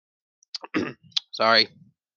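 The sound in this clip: A deep swallow with wet mouth clicks: a few sharp, quiet clicks, then a brief voiced sound, all short and fairly soft.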